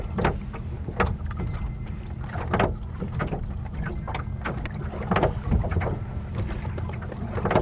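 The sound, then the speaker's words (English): Oars dip and pull through the water as a small sailing boat is rowed, with regular splashing strokes about once a second over a steady low wind rumble. “And I'm rowing it for a bit. It seems that after I get through this section, I'll be back in the wind and can sail again.”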